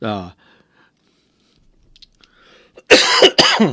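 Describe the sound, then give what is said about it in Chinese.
A person with a cold gives a sudden, harsh, loud cough in a short broken burst. It comes after a brief bit of speech and a quiet stretch with faint clicks. “抱歉，我最近因为感冒，所以咳嗽啊”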